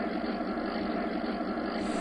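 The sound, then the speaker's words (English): Steady engine drone of an enemy tank in an audio video game, a continuous rumbling hum that holds an even loudness throughout the two seconds. “When you are running around the compound of the base, you will hear the enemy tank coming along from left to right. And one of the tanks sounds like this.”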